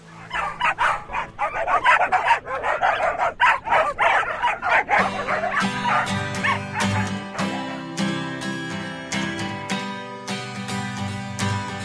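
Dogs bark and yip as the instruments of an unconventional, non-commercial music track. Many sharp, rhythmic barks fill the opening seconds, then sustained tonal music takes over with crisp percussive hits continuing over it.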